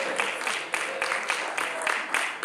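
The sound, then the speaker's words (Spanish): An audience applauds in church, clapping in a steady, rhythmic pulse of bright bursts that repeat evenly throughout at a consistent, moderate loudness. “Y el que lo crea, un aplauso bien fuerte al Señor.”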